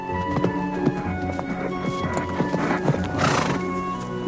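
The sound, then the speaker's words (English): Horses, including a black colt cantering over grassland, produce steady clip-clopping hoofbeats throughout, with loud neighing and whinnying rising above them. “The colt's tails and manes flow as they gallop over grassland dotted with leafy trees, then past glistening still water. In pastureland, the black colt leaves the four other horses and canters over to a man.”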